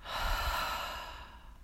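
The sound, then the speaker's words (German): Deep breathing during a relaxation exercise while lying in bed, in through the nose and out through the mouth: one long, soft, airy breath that stays steady and unhurried, heard alone with no talk. “Atme einmal tief durch die Nase ein und durch den Mund wieder aus.”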